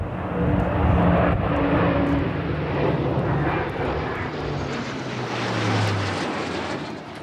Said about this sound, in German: Die sind jetzt heute Piloten bei der Luftwaffe und die sind extra aus Neuburg an der Donau einmal über diese Zeremonie über die Kaserne in Roth geflogen. Und das war ganz schön laut.